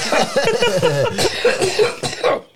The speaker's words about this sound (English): His cough has a stutter, too.